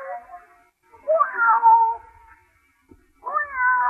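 A cat meows a few times: a softer call at the start, then a louder, drawn-out, wavering meow, and another after a short pause, with no other sounds.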